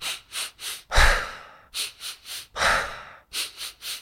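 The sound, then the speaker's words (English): Breathing exercise with three quick, sharp nose inhales followed by a long, audible sigh out through the mouth. The cycle plays twice and a third round of three inhales begins, with no talk over it. “a breath where you breathe 3 times in through the nose quite quickly and then sigh out through the mouth.”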